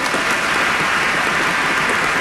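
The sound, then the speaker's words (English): An audience applauds at a celebratory evening event. Many hands clap in a dense, continuous roar that stays loud and even for the whole span. “For I truly believe, yes, let's applaud you.”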